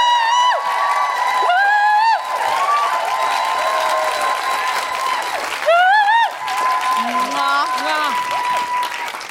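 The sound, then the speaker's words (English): Live audience applause and cheering welcoming a guest director and writer on stage: loud, dense clapping throughout, with several high whoops and whistles rising above it. “Put your hands together and make enormous, guilty feminist welcoming noises”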